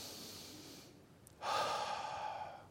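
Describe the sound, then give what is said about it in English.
One sharp, forceful breath pushed from the diaphragm during a singing exercise, a quick breathy burst that rises suddenly out of quiet air and then fades, faint and alone. “So when you breathe, you should feel your fingers moving.”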